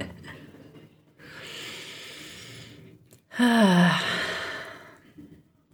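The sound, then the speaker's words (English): Deep breathing during a meditation pause: a long, airy inhale, a short break, then a louder, heavier exhale that turns into a soft voiced sigh before fading out. “it's just starting by taking deep breaths, deep breaths, deep breaths.”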